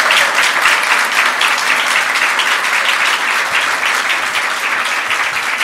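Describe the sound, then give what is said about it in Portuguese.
A Brazilian audience gives a round of applause to the teachers present, 110 from every state in the country: loud, full, continuous clapping that stays even from start to finish. “eu queria pedir uma salva de palmas a todos os professores e professoras aqui presentes”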